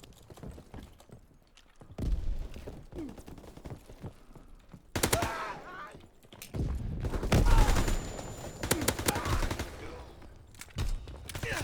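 Automatic gunfire from a video game weapon sprayed from the hip: several bursts of rapid shots with quieter gaps between them.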